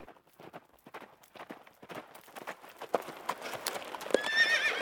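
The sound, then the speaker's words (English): A horse pulling a butcher's wagon out of a forest clip-clops along in a steady, uneven rhythm of hooves. The hoofbeats grow louder toward the end, where a short whinny breaks through. “Before stepping out of the trees, he saw a butcher's wagon coming from within Sherwood and going toward Nottingham.”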